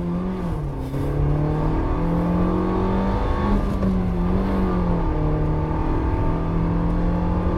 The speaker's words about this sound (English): WRX going by us.